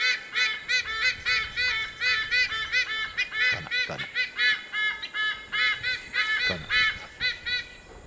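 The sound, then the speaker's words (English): A large white-bellied sea eagle gives many nasal, goose-like honking calls in quick rhythmic series. The calls are loud and clear, with no other sounds. “So this is the call of the white-bellied sea eagle.”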